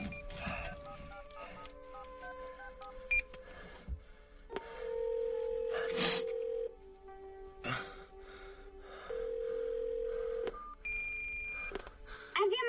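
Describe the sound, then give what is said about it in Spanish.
Keypad tones of a mobile phone as a number is dialed, a series of short beeps mixed with longer held tones, fairly faint overall. “Toma el móvil y marca.”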